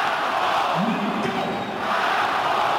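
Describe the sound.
A stadium crowd at Parken Stadium in Copenhagen chants the name of the goalscorer after an equaliser in a Denmark–Portugal football match, a dense, steady roar of many voices throughout.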